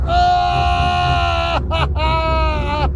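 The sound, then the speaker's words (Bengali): A human scream of terror after tripping and falling in a tunnel: two long, loud, sustained high cries with a short break between them, the second sliding down in pitch at its end, over a steady low rumble. “আচমকা কিসে যেন পা বেঁধে আমি তড়াম করে পড়ে গেলুম আর প্রাণের ভয়ে আর্তনাদ করে উঠলুম,”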